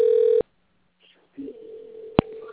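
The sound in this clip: A short, steady telephone dialing tone lasts under half a second and sounds alone. A pause follows, then quieter talk-like sound and a single sharp click.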